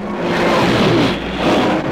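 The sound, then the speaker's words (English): Superstocker race car engine revving hard as the clutch is popped, a loud, gritty roar that surges twice in quick succession. “Ron Howard steals the Superstocker, pops the clutch, and tells the world to eat my dust.”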